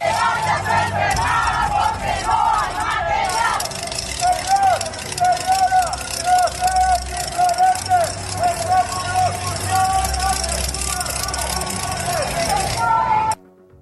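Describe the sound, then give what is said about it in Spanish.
IMSS health workers march in protest through the streets of Xalapa, a crowd chanting slogans in a steady rhythm over passing traffic and vehicle noise, before the chant breaks off abruptly at the end. “el IMSS Delegación Veracruz Norte se suma a esta serie de protestas a nivel nacional y así fue como se escuchó en las calles de Jalapa.”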